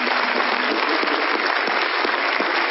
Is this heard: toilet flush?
no